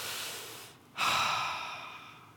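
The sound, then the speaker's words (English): A deep human breath: a long airy inhale, a short pause, then a slow, breathy exhale that swells and gradually fades. Soft and unvoiced, with no talking. “Okay, deep breath.”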